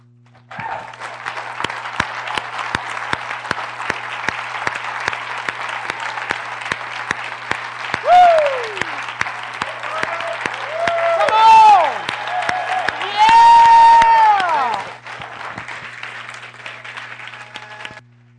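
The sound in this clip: Audience applause welcoming a guest on stage: brisk, loud clapping throughout, with a few rising and falling whistles cutting through near the end.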